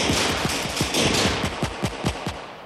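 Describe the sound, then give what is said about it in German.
Rapid gunfire from a shootout in a radio play: many sharp shots crack in a fast, fairly even burst, continuous and loud over a dense, noisy backdrop. “Die Schießerei beginnt. Al-Dakil und sein Leibwächter gehen zu Boden. Dann ohne Warnung eröffnen Ochs Männer das Feuer auf die beiden Killer aus dem Taxi.”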